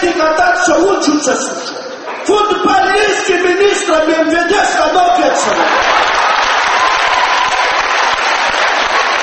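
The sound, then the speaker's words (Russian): Audience applause at a KVN comedy game in Sukhum, Abkhazia, erupting after a stretch of bright music. The clapping swells into a dense, loud roar of hands and crowd noise that fills the second half. “Судя по аплодисментам, удачнее всех на эту тему пошутили игроки команды абхазского телевидения.”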